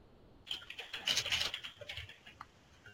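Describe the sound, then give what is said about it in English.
Typing on a computer keyboard while entering a server name during software setup: a faint, quick burst of clicking keystrokes lasting about two seconds, with quiet before and after. “Let's just make sure I type that in properly.”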